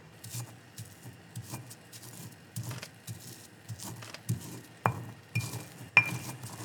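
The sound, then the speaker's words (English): Garlic cloves and salt being ground into a paste in a lava rock molcajete, irregular gritty scraping broken by sharp knocks and clinks that grow louder toward the end. “So the molcajete is a mortar and pestle made of lava rock. And so we're going to add a little bit of just a couple of garlic cloves with some salt. And so we're going to make a paste.”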